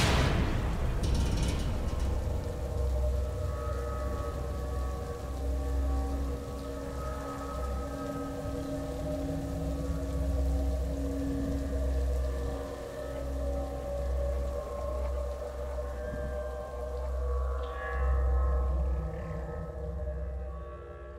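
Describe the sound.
Rain falls continuously as a steady, soft hiss over a low sustained drone with faint wavering tones, lasting the whole stretch without any talk.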